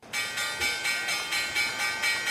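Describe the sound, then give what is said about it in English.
Stock exchange closing bell ringing at the end of the trading day, a bright metallic ring that pulses rapidly and evenly throughout, with no voices. “Let's hit the closing bell.”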